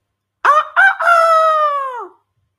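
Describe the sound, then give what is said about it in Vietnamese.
A rooster crows loudly once, two short clipped notes followed by a long drawn-out note that drops in pitch at the end. “Nơi xa lại là một tiếng gà gáy.”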